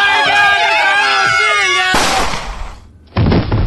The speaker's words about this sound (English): Oh, my God, you shot Jacob.